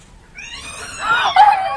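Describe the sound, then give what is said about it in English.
A startled cat yowls in one long, drawn-out cry that begins faintly and swells louder toward the end, with a wavering pitch. “You ever seen the expression on a cat's face when it's startled? Well, watch.”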